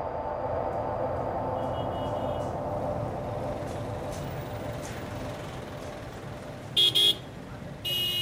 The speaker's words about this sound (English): A couple days later, we're driving around downtown Addis. There is major construction going on everywhere.